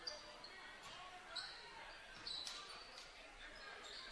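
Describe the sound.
A basketball is dribbled during a men's game as the ball is brought back out to reset. Soft, intermittent bounces sit over quiet gym noise.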